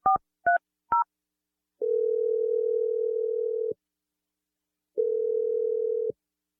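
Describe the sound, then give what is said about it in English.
A phone number is dialed on a telephone: three short keypad beeps of different pitches, then two long, steady, mid-pitched tones separated by a pause, with no talking. “I'm going to dial the number now. Here we go.”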